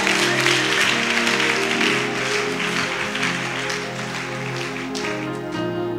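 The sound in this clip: Applause from a church audience during a worship service, a steady, dense clatter of many hands that stays loud throughout.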